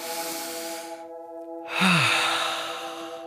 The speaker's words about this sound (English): And I'm taking a deep breath.